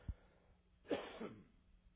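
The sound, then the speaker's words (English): A single cough, a brief sharp burst of moderate loudness with a short rasping tail, heard alone without any talk; a faint low thump comes just before it. “I wondered when I was going to cough.”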